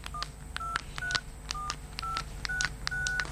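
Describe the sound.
Telephone number dialed on a keypad, heard as a steady series of about seven short electronic beeps with faint clicks between them, with no talk.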